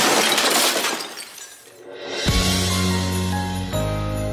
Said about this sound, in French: Oh, elle a cassé un vase, hein, je vous le dis.